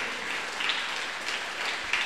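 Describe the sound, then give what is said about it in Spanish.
An audience claps in a Pentecostal church, producing a steady, hissing texture of many hands, almost like rain, with a few slightly louder accents over two seconds. “¡Aplauso para Cristo Jesús!”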